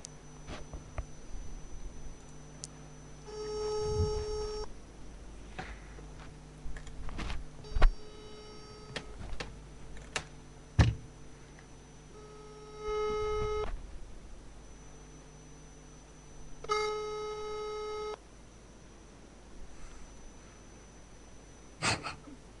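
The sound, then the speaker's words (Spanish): Telephone ringback tone sounds while a call is dialed out from a radio studio, several evenly spaced tonal buzzing rings separated by pauses over a low steady hum. “Está llamando ya, ¿eh?”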